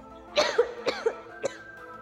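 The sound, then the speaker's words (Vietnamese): Harsh, violent dry coughing from an old man in a coughing fit: a few rough, raspy bursts spaced about half a second apart, each quick and loud against a quiet background, with no talk. “Kim Lão Thái quát lên thật lớn, là nhìn không được kịch liệt ho khan một hồi.”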